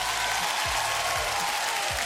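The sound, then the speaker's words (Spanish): An audience applauds in a continuous, even wash of clapping that stays at the same level for the whole stretch. “Vamos a empezar saludando hoy día de inmediato Onde Chindita, que le damos un aplauso.”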